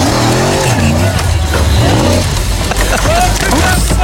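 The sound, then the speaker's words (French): Rally car racing in the Dakar desert rally, its engine revving loudly with whining pitch that climbs and drops, over a constant dense rumble of motor and terrain noise throughout. “nous allons partir sur le Dakar. On a un copilote qui devient complètement ouf parce que le pilote a décidé de faire n'importe quoi.”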